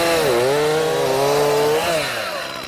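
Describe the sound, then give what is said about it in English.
A Stihl chainsaw engine runs steadily with a loud, buzzing drone and strong harmonics. Its pitch dips early, holds, then rises briefly before the sound gradually tapers off toward the end. “Nice chainsaw steel, I think, yeah, isn't it? Yeah. You can't go wrong with the steel. Don't we have a steel chainsaw?”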